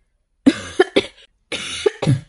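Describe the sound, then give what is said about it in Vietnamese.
Dry coughing from a person who is not yet fully recovered after falling into water: two bouts of several short, harsh coughs separated by a brief pause, loud against silence. “Lần trước rơi xuống nước vẫn chưa khỏi hẳn, thỉnh thoảng Yến Hà Thanh lại ho khan.”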